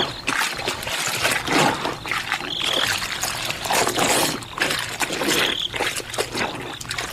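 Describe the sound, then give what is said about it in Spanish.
Foul-smelling liquid is poured out around a house, a continuous splashing, trickling flow that swells and eases in uneven waves for several seconds. “Con gran cautela, para no hacer ruidos, la vieja bruja comenzó a regar alrededor de aquella casa el líquido que emanaba un mal olor.”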